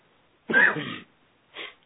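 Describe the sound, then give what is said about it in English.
A rough cough or throat-clearing in two bursts, a longer harsh one followed by a brief, fainter one after a short pause. “Sorry if I'm having to cough a little bit.”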